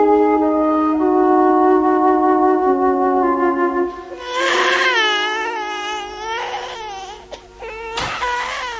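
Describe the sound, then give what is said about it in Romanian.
A newborn baby girl cries in loud, wailing bursts with wavering pitch, after a few seconds of steady sustained tones at the start. “Ce se aude? A născut Caterin? A născut o fetiță”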